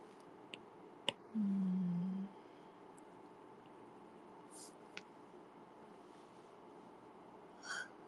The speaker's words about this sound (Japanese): またアップルペンシル落ちちゃった。